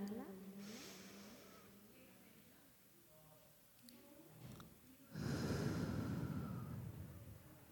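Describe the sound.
A person takes a deep breath in during a calming exercise for exam nerves. The breath is a breathy, rushing inhale that swells loudly in the second half after a quieter stretch.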